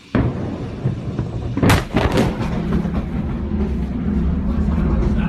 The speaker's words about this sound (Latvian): redzama vispirms viena eksplozija, kurai uzreiz sako otra, daudz lielāka, radot spēcīgu triecienu vilni.